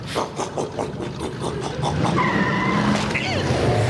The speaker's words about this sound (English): I supercharged my riding mower!